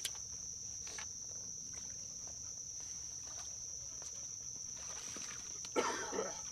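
Throat clearing and a cough bringing up mucus from a hunter waiting for daylight on the opening day of teal season: a short rough burst near the end, over a steady high insect drone.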